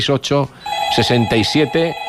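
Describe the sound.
Telephone ringing for an incoming call, a steady high electronic tone that sounds beneath continuous talk after a brief opening stretch of speech.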